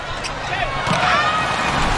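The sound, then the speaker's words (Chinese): A table tennis ball is served and bounces on the table during a Brazil versus Japan match. Its quick, light bounces sit under continuous sports commentary. “又是一个高质量的发球”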